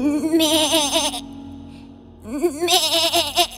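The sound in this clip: A young goat bleats twice, each call a wavering, nasal cry of about a second, separated by a short pause. Both bleats are loud and stand alone with no talk.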